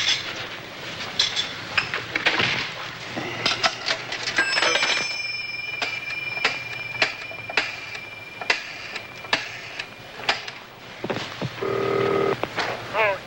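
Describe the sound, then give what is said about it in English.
A public pay phone makes a busy run of clicks and clunks as coins go in and a number is dialled. A steady tone appears partway through, sharp clicks follow at an uneven rhythm, and a brief tonal burst comes near the end. “Can I use your phone? It's a public phone.”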